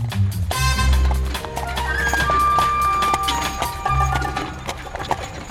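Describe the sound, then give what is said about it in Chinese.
Hooves of a limping horse pulling an arriving carriage, its horseshoes ill-fitting: many uneven clip-clops in an irregular rhythm, fairly loud and continuous. “门前来了一辆马车，那匹马走得好像不是很顺利耶，一跛一跛的，看起来马蹄上面套了不合适的蹄铁，”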